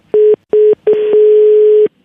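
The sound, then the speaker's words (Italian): A telephone line tone sounds after a call is hung up: two short, loud beeps at a steady pitch, then a longer unbroken tone of about a second, with nothing else heard. “Beh, ma allora siete proprio maleducati a sbattere così il telefono in faccia.”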